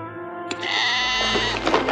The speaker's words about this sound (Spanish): Asustado, deja caer la cartera de la que sale una oveja liliputiense.